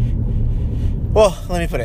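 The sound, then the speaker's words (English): Low, steady engine and road rumble inside a car being driven to an IT job, a continuous hum running underneath, with a voice starting to talk near the end. “Currently, I'm driving to a IT job I gotta do.”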